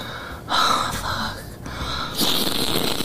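A person snorts a substance off a hand with a few sharp, breathy nasal inhalations. They sound like quick gasping sniffs separated by short pauses, with no talk in between.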